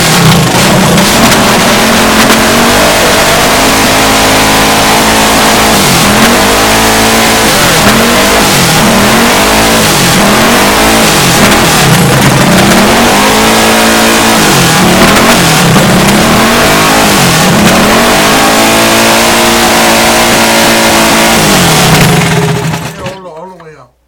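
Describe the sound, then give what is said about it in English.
A car engine revs repeatedly during a carburetor idle adjustment, with many loud throttle blips that rise and fall in pitch over a steady running drone, cutting off sharply at the end. “We're going to bring the idle down just a little bit.”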